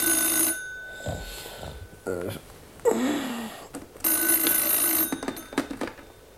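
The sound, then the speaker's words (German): Telephone bell ringing at dawn, in two loud, buzzy bursts near the start and again past the middle, with a few duller knocks and other brief sounds in the gap between them. “Es war 4:30 am Montagmorgen, als das Telefon klingelte.”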